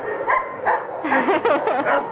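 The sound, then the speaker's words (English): Dog barking sound effect: a couple of short, separate yips, then a busier run of barks with whimpering, whiny calls. “Who let the dogs out? You're so crazy. Who let the dogs out? What other sound effects are there?”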